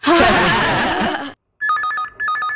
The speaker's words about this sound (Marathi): SMS आहे. Message काय तो तरी बघा.